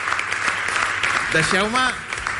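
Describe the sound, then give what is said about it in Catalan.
An audience applauds in a school assembly hall with steady, dense clapping throughout, while a voice speaks over it partway through. “Un aplaudiment per ells, sisplau.”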